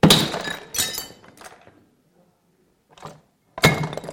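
Glass breaking into shards: several sharp, bright crashes with a ringing, tinkling spray of fragments. The crashes come in bursts separated by short gaps and brief silence.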